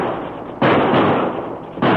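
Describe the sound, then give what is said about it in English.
Gunshots ring out during a stagecoach holdup at the top of a steep trail grade. The loud, sharp blasts with noisy trailing tails are spaced apart across the short stretch. “But just as the stage finally reached the top of the grade, several shots rang out.”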